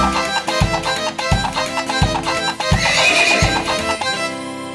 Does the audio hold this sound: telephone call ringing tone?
no